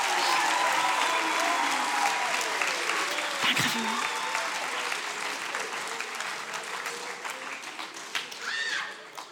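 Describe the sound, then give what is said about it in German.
A crowd applauding helpers at the front of a gathering: loud, dense clapping at first that slowly thins and grows quieter toward the end. “Ich glaube, wir können gerne noch mal so einen großen Applaus geben für meine lieben Helfer da vorne.”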